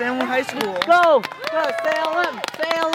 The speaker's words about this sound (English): This is the sound of the Hanover High School unified track team at the long jump.